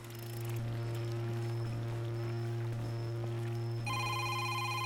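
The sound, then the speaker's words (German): A mobile phone rings underwater as a muffled, steady tone, quiet throughout. A brighter ringing tone joins near the end. “Blubbern, Wasser. Was passiert, wenn das Handy ins Wasser fällt?”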